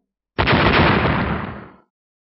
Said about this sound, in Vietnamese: Những tiếng nổ vang dội đất trời